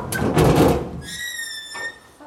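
A cargo door, just unsealed after a customs seal, is pulled open by its lower handles: a noisy metallic clank and rattle, then a long, steady, high squeal, then a softer scrape.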